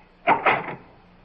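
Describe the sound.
A door is opened in two quick, rough bursts of creak and rattle, followed by near silence.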